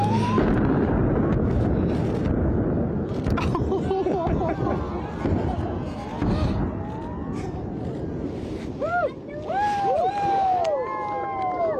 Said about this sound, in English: Here is the moment that an explosive blast at Kalgoorlie's Super Pit gold mine sent pink powder flying and tears flowing for a unique gender reveal.